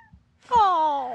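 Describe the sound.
A pet cat gives one drawn-out meow, a bright harmonic cry that slides slowly downward in pitch and holds steady in loudness, heard alone after a faint brief sound.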